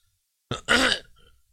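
A single short cough is heard alone. It has a sharp onset, then a rougher voiced burst, and fades quickly.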